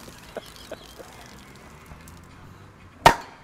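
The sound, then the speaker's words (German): A beer bottle pops open with one sharp, loud crack near the end, preceded by a few faint ticks against a quiet background. “Das dritte Bier des Tages wird gerade geöffnet.”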